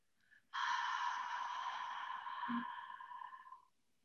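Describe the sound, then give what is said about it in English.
A short, faint inhale is followed by a long, slow exhale lasting about three seconds, a steady breathy sigh that trails off at the end. “So you would just take an inhale, which looks like, and then exhale longer and slow.”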